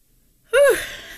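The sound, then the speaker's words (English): A single sneeze breaks out suddenly after silence, a sharp voiced burst that rises and falls in pitch before trailing off into a breathy exhale. “What you heard there was, excuse me, about to sneeze.”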